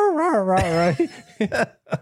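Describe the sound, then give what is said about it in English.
A small dog gives an odd, duck-like quacking call: a long wavering, whining tone, then a few short, sharp clipped bursts separated by brief pauses. “It's the world's first duck calling dog.”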